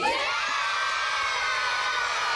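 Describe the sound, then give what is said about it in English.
Studio audience cheering at a game show before the final challenge between young women contestants, a steady, loud, dense roar of cheers and whoops that runs through the whole clip. “And the studio audience is all fired up, right?”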